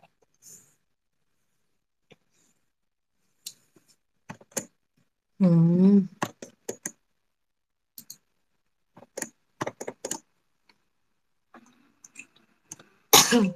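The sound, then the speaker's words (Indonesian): Coughing from someone with a cold: scattered harsh, short bursts separated by silence, with one longer voiced, strained burst in the middle, a quick cluster of coughs later on, and faint clicks in the gaps. “Ih, sampai sakit punggung batuk.”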